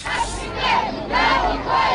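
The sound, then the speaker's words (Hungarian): A crowd of 2000 marches through the streets of Kiev with blue flags, chanting slogans in support of Yanukovych. The voices rise in loud rhythmic surges, again and again. “Kék zászlókkal és Janukovicsot éltető jelszavakat skandálva menetelt a 2000 fős tömeg Kijev utcáin.”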